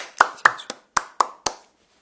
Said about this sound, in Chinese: 让我们一起为她和主来拍拍手。